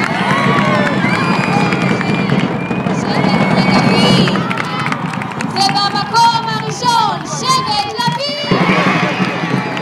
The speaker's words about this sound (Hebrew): הם מקבלים מקום שני בשער. ומקום שלישי בפני שטח. ובכל פעם קופצים אחד על השני, מתחבקים ושרים.